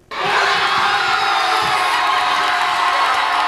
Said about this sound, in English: That was the sound of jubilation at the packed Cape Verdean Social Club in the hollow section of Bridgeport as the country scored its first ever World Cup goal.